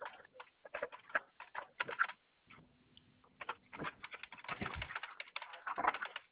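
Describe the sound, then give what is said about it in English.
Fingers type on a computer keyboard in a fairly faint, irregular clatter of many quick key taps. The taps come in uneven bursts, with a brief lull midway before the typing resumes more densely. “Get that part typed up.”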